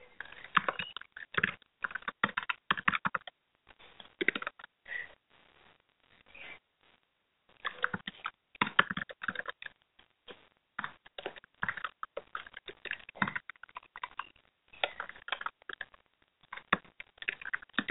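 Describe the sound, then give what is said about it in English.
Typing on a computer keyboard, with many rapid light key clicks in uneven bursts separated by short pauses, with no talking. “I'm just tip tap typing away to let you know we do have a chat open again”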